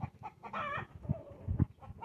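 Chickens clucking in a series of short clucks with one longer drawn-out call in the middle, fairly quiet, with no voices.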